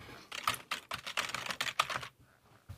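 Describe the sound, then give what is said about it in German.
Quick typing on a computer keyboard: many clattering key presses in an uneven run that stops, followed by a lone faint tap at the end. “Ich tippe einfach mal was ein, okay?”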